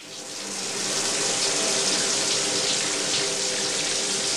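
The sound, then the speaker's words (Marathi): Water runs from a tap in a loud, continuous rush that swells over the first second and then holds steady as an unbroken splashing hiss. “अरे अर्धा तास झाला पाणी वाहत आहे, टाकी बंद कर.”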